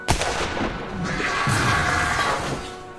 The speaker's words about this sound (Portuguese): atirou com esse rifle Springfield, né?